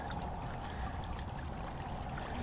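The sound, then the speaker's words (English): Water lapping against rocks at the edge of a bay, a soft continuous wash and trickle that stays faint and even throughout, with no voices. “Maybe you can hear the water, the sounds of the water up with the rocks.”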